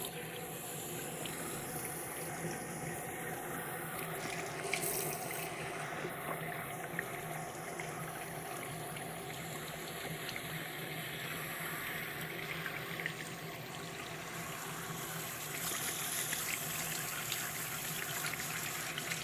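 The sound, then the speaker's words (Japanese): Hot water runs steadily for a rinse before a shampoo to wash out hair wax, a continuous soft hiss that stays even and faint from start to finish. “じゃあワックス落とすからまずシャンプーするね。 お湯の温度を見て、 はい、目つぶってガーッといくよ。”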